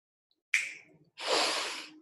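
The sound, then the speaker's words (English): A deep breath in, taken during a guided breathing exercise, heard as two airy breath sounds from one person: a short intake, then a longer, steady inhale. “Okay, you're going to take a deep breath in.”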